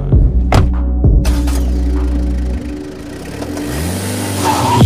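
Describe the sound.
A car engine revs with a throbbing, low hum, broken by a few sharp bursts early on, dipping briefly in the middle and building again toward the end.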